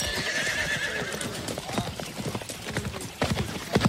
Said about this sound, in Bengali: যেসব ডাকাতের make up হয়ে গেছে তাদের মধ্যে কয়েকজন ঘোড়ার পিঠে চেপে ছুটোছুটি আরম্ভ করে দিয়েছে।